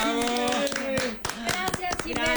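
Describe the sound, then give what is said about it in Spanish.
Applause for someone being honoured: many quick, sharp hand claps in an irregular, lively patter, with voices talking over them throughout. “Pues aplausos para nuestra Simichu.”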